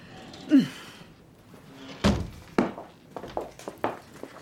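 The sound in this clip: Heavy doors into a floating theater's auditorium are pushed open, giving a few dull thunks and knocks. Lighter bumps and creaks follow, and there is no talk.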